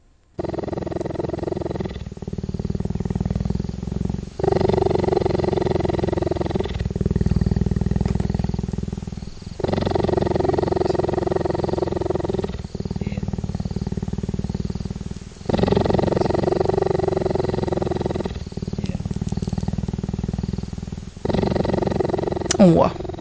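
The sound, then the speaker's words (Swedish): Deep, rumbling purr of a large cat, loud and continuous, surging in long rhythmic cycles of a few seconds each as it alternates between breathing in and out, with short pauses between the cycles. “han låg där på gräsmattan och spann dygnet runt. Och det hördes på 50 stegs avstånd ute på savannen.”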